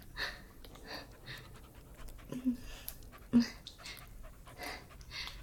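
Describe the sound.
A dog pants in quick, rhythmic, breathy puffs that keep going throughout, with a couple of louder snuffling bursts.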